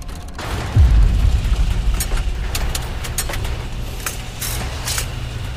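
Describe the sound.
A spaceship weapon fires in a space video game, and an explosion tears through a hull: a deep, loud boom with a rumbling tail, followed by a series of sharp, bright clicking transients over a low steady hum.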